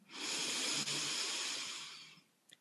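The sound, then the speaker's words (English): A deep inhale drawn through the nose from the belly during a guided breathing exercise: one long, airy hiss that swells quickly, holds steady, then tapers away over about two seconds, with a small click at the end. “Inhale deeply from the belly”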